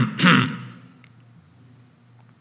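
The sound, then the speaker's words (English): A man clears his throat in a synagogue: a single short, loud, rasping burst near the start, then only a low, quiet background. “But from the other side of the room, the man in charge clears his throat”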